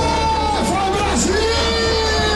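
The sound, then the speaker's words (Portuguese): Football fans in a bar cheering for Brazil's national team: loud, overlapping yells and whoops, with a few drawn-out shouts standing out. “E a empolgação era tanta que o bar parecia arquibancada. A torcida ficou animada com o primeiro tempo da seleção. Mas a expectativa agora é pra Neymar. Sente só.”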